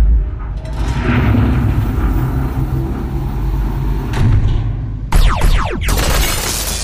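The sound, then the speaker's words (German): A large hangar door opening: a long, broad mechanical rumble with hiss gives way suddenly to a burst of sweeping whooshes near the end. “Das Hangar-Tor öffnet sich.”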